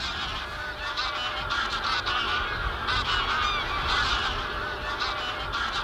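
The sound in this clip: Geese honking: white-fronted, barnacle and brent geese in winter, many overlapping nasal honks forming a dense, continuous chorus throughout, with no talk.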